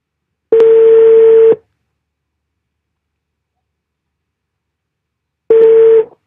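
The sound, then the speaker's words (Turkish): Ringback tone of an outgoing phone call: two steady, one-second buzzing tones at a middle pitch, separated by a long silence, with no voices. “Bugün Faruk'u arıyorum.”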